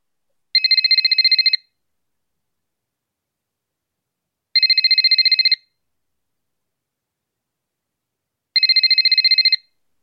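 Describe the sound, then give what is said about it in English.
A telephone rings on the other end of a dialed line: three evenly spaced, bright electronic ring bursts, each about a second long, separated by silent gaps, with no talking. “Ring him. I'll dial his number now.”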